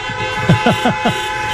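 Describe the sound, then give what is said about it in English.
A bus horn toots in Ballina, a quick run of a few short, bright blasts over steady background noise. “There it is, the Cordoff bus.”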